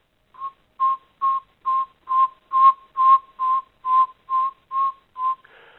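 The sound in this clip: A northern saw-whet owl gives its rhythmic tooting call: twelve evenly spaced, steady mid-pitched whistled notes. The first note is softer and the rest are clear and loud, followed by a faint brief sound at the end.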